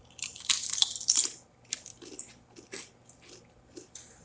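Someone bites into and chews a salty, lemon-flavored crunchy potato chip: a burst of loud, crisp crunches is followed by softer, irregular chewing crackles, with no talking.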